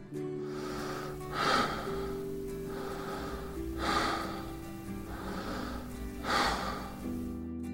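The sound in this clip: Three deep breaths, each a slow, soft, airy inhale and exhale, spaced evenly apart over a faint steady tonal background.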